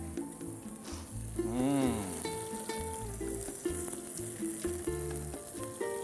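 Shrimp sizzle as they fry in a pan. A continuous, fairly faint hiss of frying runs through the whole stretch without pause.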